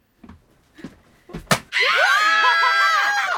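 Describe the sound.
Sharp slaps land on the buttocks in a windmill-style arm swing, a penalty game, with a few smacks in quick succession, the last loudest, followed at once by a loud, sustained, wavering scream.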